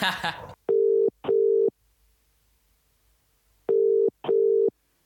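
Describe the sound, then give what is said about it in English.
A telephone ringback tone follows the dialing of a number: two pairs of short, steady buzzing tones with a long pause between the pairs. A brief burst of voice-like noise comes at the start. “We're in a pickle and we need your help. Dial that number, baby.”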